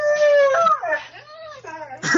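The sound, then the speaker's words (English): Dogs howling and whimpering together, several high wavering harmonic tones that glide up and down in pitch, steady at first and then breaking into a louder, rougher burst at the end. “My dogs are freaking out right now.”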